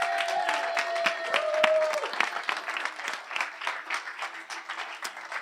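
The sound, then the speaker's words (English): Applause from a church audience, dense steady clapping that carries on throughout, with a sustained tone briefly audible in the first couple of seconds. “Come on, give it up for Brent if you would.”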